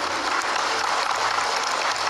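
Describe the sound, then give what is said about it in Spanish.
Audience applause at a municipal ceremony, a continuous even wash of clapping at moderate loudness, brief and without talk. “Le pido de favor para que le demos un aplauso en donde quiera que se encuentre.”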